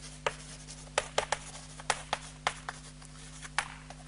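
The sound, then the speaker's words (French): Chalk writing on a board during a lecture: many short, scratchy strokes and taps at an irregular pace, fairly faint, over a steady low hum. “Cette craie qui me permet d'écrire.”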